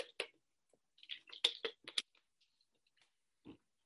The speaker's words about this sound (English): I type fast.